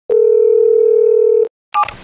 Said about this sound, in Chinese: 还是昨天那个号，直接给他打过去。